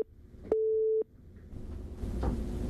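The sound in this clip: A telephone busy tone sounds after a dropped call: a single steady, mid-pitched beep lasting about half a second, followed by quiet line hiss.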